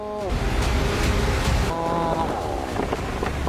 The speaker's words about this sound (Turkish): Rüzgar artıyor.